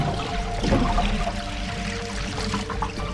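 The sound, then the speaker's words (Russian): Water gurgling and bubbling inside an upside-down water cooler bottle, a steady, moderately loud churning with no voices. “Подходит к кулеру. Жидкость в нем завалена по горизонту в сторону найденного предмета. Вода бурлит в перевернутой бутылке.”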